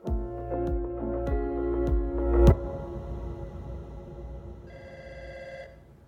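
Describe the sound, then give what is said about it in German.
A telephone rings in a home, with several rapid metallic bell strikes that build to a sharp final hit before a long fading tail. A fainter higher tone sounds near the end. “Im August wagt Scholz einen kühnen Schritt. Er ruft Baldwin zu Hause an.”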